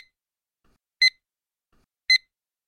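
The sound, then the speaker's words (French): Two short, bright electronic beeps marking the start and end of an exam audio text. Each is an identical high tone, evenly spaced about a second apart, heard alone against silence. “Le début et la fin de chaque texte audio seront indiqués par le signal sonore suivant.”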